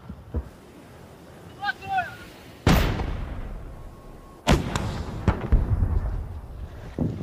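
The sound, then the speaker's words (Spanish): Artillery and gunfire during a military advance toward Kherson: two heavy, booming blasts with long rumbling tails, plus several smaller, sharper shots scattered around them. “Los orcos están disparando con todo su arsenal.”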